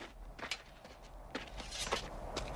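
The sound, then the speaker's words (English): Faint footsteps and sword movements as a swordsman steps away, draws his blade and thrusts it about; a few soft, sharp transients stand out over a quiet hiss. “Inigo steps away, takes out his sword and thrusts it about skillfully before...”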